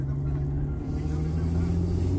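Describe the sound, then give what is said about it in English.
Steady low rumble of a car being driven, heard from inside, an even continuous drone of engine and road noise with no distinct events. “My bad, I'm driving.”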